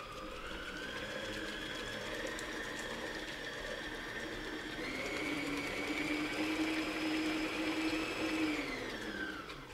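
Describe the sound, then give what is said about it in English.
An electric mixer beats butter, sugar and eggs in a steady, whirring motor drone with no talk. The pitch steps up about halfway through, holds, then eases off at the very end. “And to this, I'm going to add the eggs. Okay, I'm going to let that mix and incorporate for a bit.”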